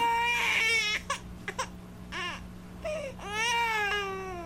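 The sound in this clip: A newborn baby's first cries just after birth: several wavering, high-pitched wails broken by short catches of breath, rising again into a longer cry near the end over a faint steady hum.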